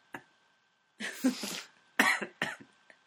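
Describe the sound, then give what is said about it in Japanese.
Sharp coughing after choking comes in a few uneven bursts separated by short silences, with a faint steady whine running underneath. “え、むせちゃって”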